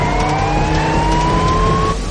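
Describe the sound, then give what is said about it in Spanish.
A car accelerates hard and weaves in an S pattern past other cars. The engine's loud, steady roar carries a whine that rises gently in pitch through the short burst. “Acelera y adelanta a los otros coches haciendo S.”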